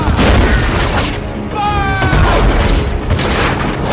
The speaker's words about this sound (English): Let's fly! Let's fly! And they open fire.